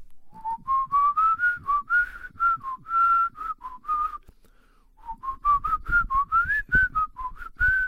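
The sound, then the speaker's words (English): A person whistles a comforting song alone, a clear melody of many short, bright notes in a bouncy rhythm, with a brief pause near the middle before the tune resumes. “I'm going to keep myself company by whistling a comforting song. Like,”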